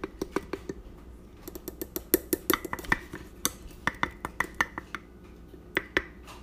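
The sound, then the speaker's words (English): All-purpose flour is scooped with a measuring cup: many light, irregular clinks and taps of the cup against a container, faint and with no other sound. “Calls for all-purpose flour. Just gonna do scoop it.”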